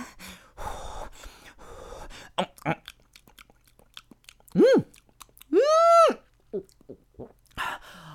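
Someone chewing food while eating makes soft, wet, crunchy mouth noises through the opening seconds. Two short voiced 'mm' hums of enjoyment follow, each rising then falling in pitch, with a few small smacking sounds between them.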